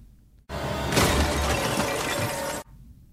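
Frozen skin shatters in a movie kill effect: a sudden dense burst of crackling, splintering noise that stays loud for about two seconds, then cuts off abruptly into quiet.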